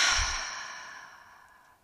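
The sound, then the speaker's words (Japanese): A slow breath during a lying-down yoga nidra relaxation session, drawn in through the nose and let out through the mouth: one soft, airy, whooshing breath that gradually fades over about two seconds, with no voices. “鼻から吸って口から吐きます。”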